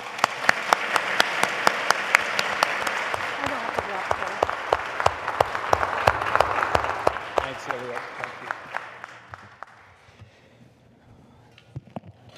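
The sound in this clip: Audience applause welcomes two speakers to the stage at a public event: dense, steady clapping that holds for several seconds, then thins out near the end to a few scattered claps.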